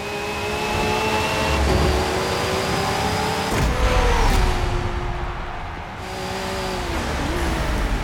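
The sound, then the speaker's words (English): Race car engine from the video game Forza Motorsport 7, a loud sustained whine over a steady roar, its pitch stepping several times as gears change. “Racing is reborn in Forza. Whether running on the Xbox One family of consoles or Windows 10 PCs, Forza Motorsport 7 is the most technically advanced and comprehensive racing”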